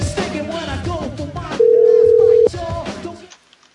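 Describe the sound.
A steady telephone dial tone before a motel room is dialed: a single flat, loud tone holding about a second, abruptly cutting in over busier sounds and ending just as sharply.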